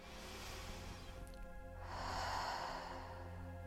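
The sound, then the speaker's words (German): A deep breath drawn in through the nose, then let out fully through the mouth: a soft, airy inhale, a short pause, then a fuller, longer exhale. “Und nun atme tief durch die Nase ein und komplett durch den Mund aus.”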